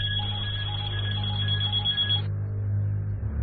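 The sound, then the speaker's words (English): Several telephones ring around a house, their electronic trilling rings overlapping at different pitches over a low hum. Then they cut off abruptly partway through, leaving only the hum. “The numerous phones around the house have begun to ring.”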